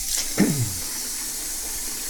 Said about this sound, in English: I'm standing in front of my kitchen sink, washing my teacup, because there's kitty fluff in it.